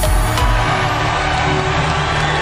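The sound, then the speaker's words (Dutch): A crowd cheers at an election victory celebration at the Louvre, a loud, dense, continuous roar of voices that holds steady throughout. “Laat gejuich op het Europese volkslied.”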